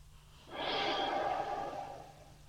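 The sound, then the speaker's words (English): A single deep breath during a seated guided relaxation exercise, a soft, airy rush of air that swells and tapers over about a second and a half, heard alone against quiet. “So I want you to take 3 deep breaths in and 3 deep breaths out.”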